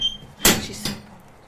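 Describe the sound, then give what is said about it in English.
A stable door or gate swings open, giving two brief, fairly quiet clattering knocks less than half a second apart, with no voices over them. “She just opened the door and walked into the stables.”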